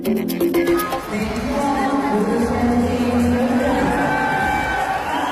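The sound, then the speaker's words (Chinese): Crowd applause and cheering at the opening of an Asian Games swimming competition, a dense steady roar of clapping and voices running loud throughout, with a few sharper bursts near the start. “伴随着热烈的掌声和雀跃的欢呼声，昨晚雅加达亚运会游泳比赛正式开赛。”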